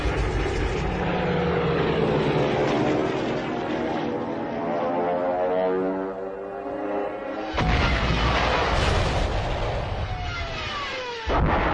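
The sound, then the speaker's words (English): A Stuka dive bomber roars as it attacks French tanks. The propeller engine drones loud and unbroken, with its pitch shifting and sliding during the dive, then the sound breaks sharply into a fresh, harsher blast of noise. “But without any reinforcements or aerial support, the French tanks become prey to the Stukas.”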